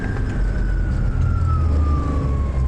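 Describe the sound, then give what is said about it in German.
Loud, steady engine and track roar inside a Hägglunds tracked supply vehicle of the German army, driving at speed over snow and ice in northern Norway, with a thin whine slowly falling in pitch above the dense low rumble. “Laut ist es in diesem Herglund, einem Kettenversorgungsfahrzeug der Bundeswehr.”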